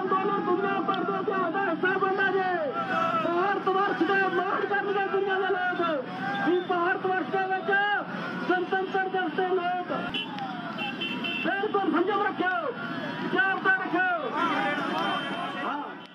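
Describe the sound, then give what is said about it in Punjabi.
A crowd at the farmers' tractor march in Delhi keeps up a constant din of loud, overlapping voices, shouting and calling out for about sixteen seconds without pause. “ਇਹ ਆਵਾਜ਼ਾਂ ਤੁਸੀਂ ਦਿੱਲੀ ਦੇ tractor March ਤੋਂ ਸੁਣੀਆਂ ਨੇ।”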